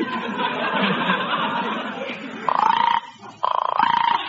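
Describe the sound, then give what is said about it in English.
A female frog calls to her mate in two rapid, pulsing croak bursts that follow a stretch of murmuring background sound. “The frog is waiting for her mate to come home, just like the bird. Listen, she's calling to her mate.”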